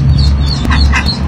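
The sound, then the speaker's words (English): Several ducklings trapped in a Saskatoon storm sewer give high, thin peeps, a few short chirps over a steady low rumble. “that's the sound of several ducklings trapped in a Saskatoon storm sewer.”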